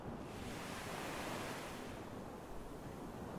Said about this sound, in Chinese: 一睁开眼，就听到了像现在一样的海浪声